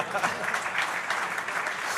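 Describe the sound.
Audience applause at a sports celebration: a brief, dense patter of many hands clapping with small swells in loudness, moderately loud and steady to the end.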